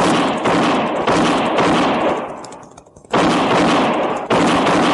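Several loud, booming gunshots ring out in a western radio drama, each followed by a long, fading tail before the next sharp blast.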